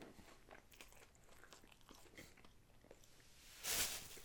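A big bite of food crunches loudly near the end, after faint, irregular chewing and mouth noises; no one speaks.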